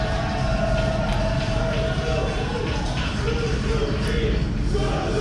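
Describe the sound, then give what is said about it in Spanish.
A wrestling crowd at a Japanese strong style match between Suzuki and Barnett chants Suzuki's name, a dense, steady, loud roar of many voices with no clear breaks. “Y el público continúa coreando el nombre de Suzuki.”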